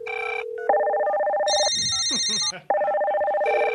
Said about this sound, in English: Answer the phone? Oh, yeah, sure. Yeah. Do it again, and I'll answer.